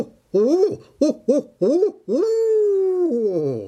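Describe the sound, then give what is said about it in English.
A human voice imitates a barred owl's hooting call: four short hoots in an uneven rhythm, then a long drawn-out hoot that slides lower at the end. “who cooks for you? Who cooks for you? Wow. That is a barred owl.”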